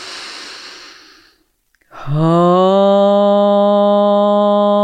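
A long, breathy inhalation during a meditation session, soft and airy, fades into a brief silence before a strong, sustained low voiced tone begins and holds steadily to the end.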